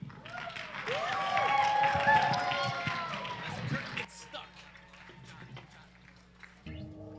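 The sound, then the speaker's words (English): Audience applause greets a band about to play original songs. A dense burst of clapping with whistle-like cheers swells for about four seconds, then thins to scattered claps and talking. “Give them a big round of applause, guys.”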